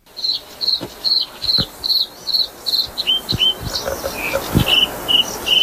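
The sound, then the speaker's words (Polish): A bluethroat, a songbird of reed beds, sings in the morning: many high, buzzy, insect-like notes repeated in a steady rhythm, the pattern shifting to a slightly lower, quicker phrase toward the end, with a few sharp clicks mixed in. “Coś się z rana pobudzało do życia i to był podróżniczek. Taki ptak dosyć ładny, który żyje w ścinowiskach.”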